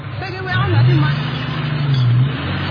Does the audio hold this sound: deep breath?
no